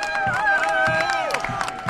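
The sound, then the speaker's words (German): Crowd cheering and applause as top candidate Winfried Kretschmann arrives at an election-night party outside a pub. Shouts and sustained voices ring over a steady spatter of clapping that holds fairly loud throughout. “Als Spitzenkandidat Winfried Kretschmann eintrifft, Hurra-Rufe und Applaus.”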